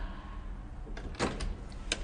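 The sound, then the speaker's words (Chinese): Knocking on an apartment door in a residential stairwell: a few quick, irregular raps, one noticeably louder than the rest, faint over a steady background hiss. “立刻上前敲门沟通”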